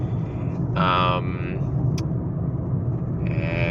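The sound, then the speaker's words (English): Steady low road rumble fills a car while it is driven to work, constant throughout, with brief higher tonal bursts near one second and again at the end. “So if you can hear the road noise in the background, it's because I'm driving to work.”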